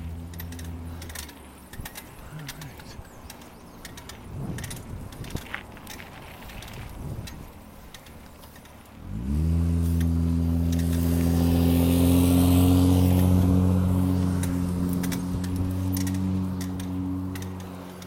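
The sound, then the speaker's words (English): A rickety bicycle chain rattles and clicks while riding, with irregular quick ticks throughout. About halfway in, a loud, steady droning vehicle engine swells up and largely masks the chain. “The chain, the rickety chain in my bike as I take each stride.”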